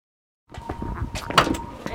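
Door opening at a community health center in Libby, Montana. A brief sliding rush and clunk follows half a second of silence, moderately loud with a sharper knock near the end.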